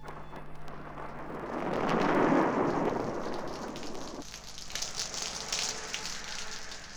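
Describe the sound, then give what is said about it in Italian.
Heavy rain pouring in torrents, like a summer downpour: a dense, continuous rush that swells to a loud, rumbling peak, then thins into a brighter, steady hiss. “Piove. Piove a torrenti, come d'estate.”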